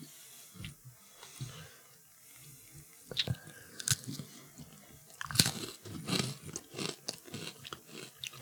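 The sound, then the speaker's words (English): Someone bites into a food and chews it. Faint crunches and moist, irregular chewing clicks follow one another without a steady rhythm, and nobody speaks. “I took a bite of the inside.”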